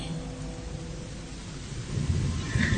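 Steady rain on a cold, quiet night around a boarding house, a continuous broad hiss over a low rumble that swells slightly toward the end, with no talk.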